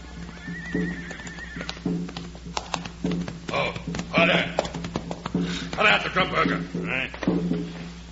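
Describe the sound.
Horses set off west, with loud whinnies and neighs and a few clip-clopping hooves, while men talk over them.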